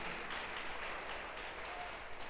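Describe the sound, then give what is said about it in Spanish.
A church audience applauds in a steady, dense wash of clapping that carries through the whole moment without breaks, fairly soft and even in level. “Si le va a dar un aplauso al Señor, déselo.”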